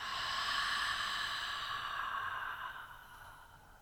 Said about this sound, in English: So take a nice, gentle breath in. And then exhale out.